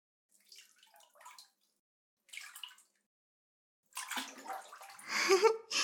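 Hot water fills a bathtub in a few short, soft splashing bursts, then breaks into a louder, sustained gushing and bubbling that swells toward the end, with no talk.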